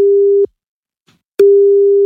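Ringback tone of an outgoing telephone call, a loud, steady single-pitched tone that cuts off, leaves about a second of near silence, then starts again.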